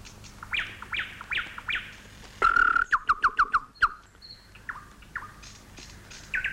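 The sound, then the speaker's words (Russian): A nightingale sings in a varied phrase of short rising chirps, then breaks into a loud, rapid trill of clicking notes before returning to scattered whistled calls. No voices are heard. “А это знаменитый курский соловей?”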